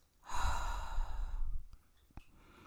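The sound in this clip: A slow, deep exhale during a guided breathing exercise: one long, soft, breathy sigh that tails off into a few faint small sounds.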